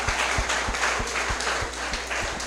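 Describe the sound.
Church audience applauding, a busy wash of clapping laid over a regular series of low thuds that keep a steady beat throughout.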